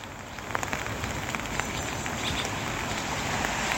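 Rain falling during a prayer gathering: a steady, fairly faint hiss with soft, scattered patter of drops throughout.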